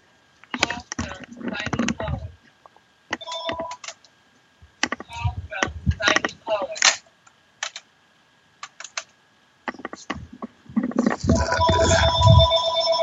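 A telephone ringtone goes off in repeated tonal bursts that become fuller and more continuous toward the end.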